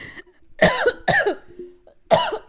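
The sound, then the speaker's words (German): Three harsh, loud coughs from someone who has choked on something out of excitement, coming in separate bursts with short pauses between them. “Entschuldigung. Oh oh. Ja direkt verschluckt vor Aufregung.”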